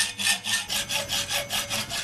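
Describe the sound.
A hand saw cuts through a steel bar for a handmade car frame in steady back-and-forth strokes. Each pass swells and fades in a gritty, rasping rhythm, with no voices.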